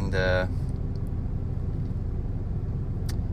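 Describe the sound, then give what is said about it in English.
A car drives off a ferry onto the ramp, its engine a low, steady rumble that holds evenly throughout with little change in pitch. “right now I'm about to drive off the ferry. Some cars behind me are making space so I can also reverse”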